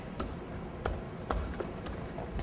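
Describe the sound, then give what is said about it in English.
Keys tapped on a computer keyboard as a value is entered into a database form: a few sparse, faint clicks spaced irregularly over a soft background hiss. “So if I then type in within these parentheses, whatever I want to place within that value, in this case, perhaps I want Alice,”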